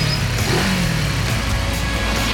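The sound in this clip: A car engine revs in a loud, continuous roar as a radio sound effect, holding a dense, steady growl for the whole couple of seconds with no talk over it.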